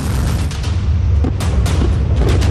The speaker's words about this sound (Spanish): Como este misil que escuchan, Corea del Norte lanzó esta madrugada otros 200 misiles de artillería hacia Corea del Sur.